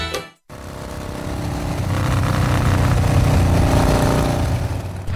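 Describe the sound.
Engine of a new motorbike running: after a brief cutoff near the start, a dense mid-pitched drone rises in strength, holds steady and eases slightly toward the end.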